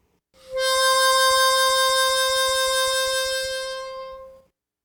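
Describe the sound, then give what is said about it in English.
A single harmonica note blown through hole 4 with fan vibrato from a hand waving back and forth, held steady for about four seconds with a soft rhythmic pulsing underneath, fading gently at the end. “So, while blowing through hole number 4, fan your left hand back and forth. It should sound like this.”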